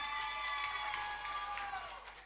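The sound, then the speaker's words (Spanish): An audience at a stage event applauds and cheers in a continuous dense wash of clapping that eases slightly toward the end, with sustained musical tones underneath. “Para, todavía no pedí aplausos. Los aplausos esta noche para Belén Díaz.”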